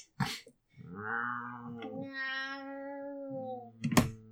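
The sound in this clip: A person's voice imitates a slow-motion cat fight with a long, drawn-out, wavering meow-like wail. Short noisy hiss-like bursts come at the start and end.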